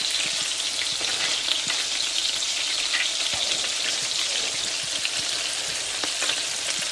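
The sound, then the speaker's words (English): Food frying in a pan as a batch of pieces is turned onto another side: a steady, dense sizzle and crackle with scattered small pops, unbroken and free of talk. “Okay, so the second side now has thoroughly cooked through and we're still in good shape. And now I'm beginning to flip them onto one of their other sides.”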